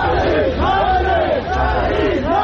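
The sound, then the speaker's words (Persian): At a protest in Paveh, Iran, a crowd chants slogans honouring environmental activists killed fighting Zagros forest fires. Loud massed voices repeat a rhythmic, rising-and-falling phrase. “مردم پاوه شعار می‌دهند که شهید زنده است.”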